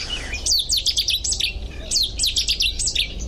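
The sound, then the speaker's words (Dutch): A Cetti's warbler sings loudly in a marsh, giving two explosive bursts of rapid, high, ringing notes separated by a short pause. “Nu is het een vrij normale soort in moerassen. De setisanger.”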